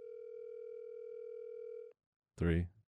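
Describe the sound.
Ringback tone of an outgoing telephone call: one long, steady ring of about two seconds, then a short silence and a brief burst of voice.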